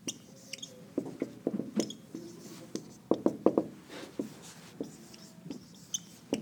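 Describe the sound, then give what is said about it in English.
A pen writes Arabic script: faint, scratchy strokes and soft taps in uneven bursts, many quick marks with brief pauses between them, and no talking. “And in Arabic, I'll write it for you.”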